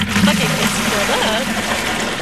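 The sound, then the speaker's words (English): Water runs into a 5-gallon bucket with small holes drilled near the bottom, set up by a city arborist to water trees during a heat wave. A steady rushing, splashing flow continues while a voice talks over it. “Charlotte City arborist Lori Reed is filling a 5-gallon bucket with water. She's drilled small holes near the bottom where the water starts to stream out.”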